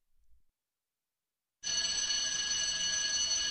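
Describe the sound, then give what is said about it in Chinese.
A theatre bell rings to signal the start of a show, a loud, bright, high-pitched ringing that begins abruptly after near silence and holds steadily to the end. “开幕的铃声响了”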